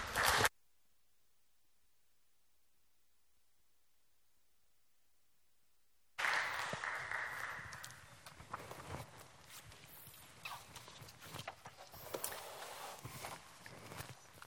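Applause from a church audience welcoming a preacher to the pulpit for a Sunday morning sermon. Broad, steady clapping bursts in after a long silence and continues unbroken to the end.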